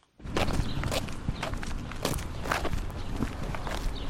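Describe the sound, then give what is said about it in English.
Steady footsteps of someone walking through a park on the outskirts of Yerevan, Armenia: many even, continuous steps at a walking pace, with no voices heard. “I'm wandering through a park just on the outskirts of Yerevan, the capital of Armenia.”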